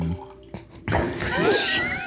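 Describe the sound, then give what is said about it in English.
Water is poured close to a microphone. It starts with a sudden splash and then becomes a steady, hissing, gurgling stream that fills the last second or so, loud and sustained. “Put it next to the mic. It just makes it better. That way people can hear it. No. Why don't you just pour it on the mic and then ring out the foam cover? Oh, yeah. Like is that flash dance or something? The water.”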